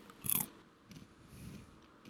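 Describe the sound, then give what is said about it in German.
Biting into a ripe walnut: one sharp, loud crunch early on, then a few faint chewing sounds, with no talking. “Dann hast du jetzt alle Walnüsse aufgegessen? Nee, ich habe dir hier noch eine übrig gelassen. Die schmeckt aber dafür ganz gut. Ein paar davon waren noch nicht ganz reif. Ja, und du hast mir ausgerechnet die reife übrig gelassen. Hm, genau. Dann probiere ich die mal.”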